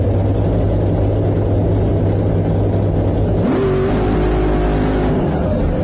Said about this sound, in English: Now that's the burnout right there.